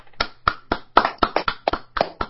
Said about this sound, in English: Give you a round of applause.